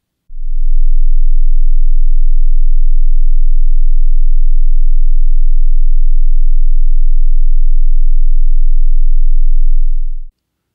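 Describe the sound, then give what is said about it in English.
A steady 20-hertz sine wave test tone, a deep, smooth low hum that holds at constant loudness for about ten seconds and then stops, with no voices. “Begin test tones. 20 hertz, 10 seconds.”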